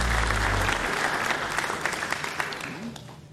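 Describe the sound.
Audience applause at a Mountain Stage concert, dense clapping that starts strong and slowly thins and fades toward the end.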